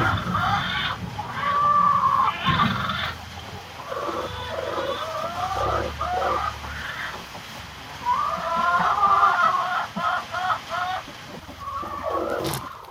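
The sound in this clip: Chickens cluck inside a henhouse in many short, repeated bursts of calls that rise and fall in loudness, with a low rumble underneath and no talking.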